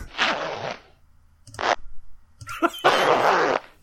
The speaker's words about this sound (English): Was that unzipping the pants sound effect? Was that unzipping? It says zipper sound effect.